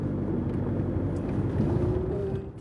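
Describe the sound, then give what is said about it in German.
Low, continuous engine rumble of a car driving into the forested Dürrenstein wilderness area in Lower Austria, a steady drone that holds even throughout with no distinct events. “Das heißt, wir fahren jetzt ins Gebiet hinein”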